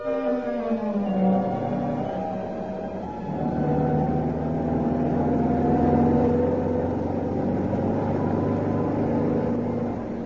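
A car engine drones steadily as the car drives along a bad road, its pitch sliding lower early on before settling into a sustained, fairly loud hum.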